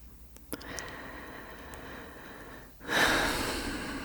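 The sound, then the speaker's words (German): Deep breathing in and out: a faint, soft stretch of breath, then a louder, longer airy breath that slowly fades. “Und einatmen, ausatmen, einatmen,”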